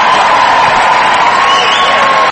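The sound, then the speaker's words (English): A crowd cheers and applauds to welcome someone home, a loud, dense, continuous roar of voices and clapping that holds steady for about two seconds. “Everybody, give a round of applause.”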